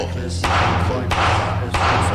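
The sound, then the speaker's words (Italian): Three sharp thuds of a mallet striking, evenly spaced about two-thirds of a second apart, each a distinct knock standing out over a steady low hum. “Un triplice colpo di maglietto.”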